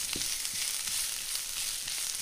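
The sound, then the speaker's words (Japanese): Onions sautéing in olive oil with garlic in a frying pan give a continuous bright sizzle and hiss, fairly faint, with a few soft low knocks from stirring and no talk. “フライパンにオリーブオイルとニンニクを入れて弱火で熱します。ニンニクのいい香りがしてきたら中火にして玉ねぎを加えてください。軽く塩をしてしんなりするまで炒めましょう。”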